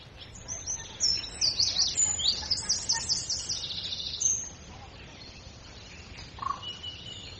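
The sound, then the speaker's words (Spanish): Wild birds singing outdoors in nature: a dense burst of high, rapid chirps and trills builds over several seconds, then drops to a quieter background with one or two isolated calls. “se escucha ahí en primer plano los sonidos de la naturaleza, los sonidos. Yo no sabría identificar ni uno de esos sonidos de los pájaros”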